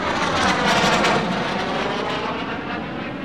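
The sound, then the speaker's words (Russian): Several airplanes climbing after escorting a passenger airliner: a loud, dense, continuous engine roar with a broad rushing texture, holding steady and easing slightly toward the end. “Самолеты снова начали набирать высоту, когда пассажирскому лайнеру уже ничто не угрожало.”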